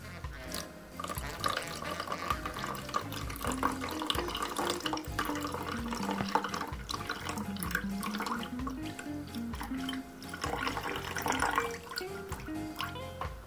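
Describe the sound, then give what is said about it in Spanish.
Water poured onto yerba mate in a cup, a faint, steady trickling and splashing that runs through the whole clip with small dips in level. “Vamos a poner un poquito de yerba con la cucharita. ¿No? Y después vamos a echar el agua.”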